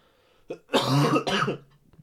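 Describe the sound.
Coughing and throat clearing bring up phlegm. A short grunt comes first, then two loud, rough, wet hacking bursts in quick succession, and it ends with a faint throaty sound.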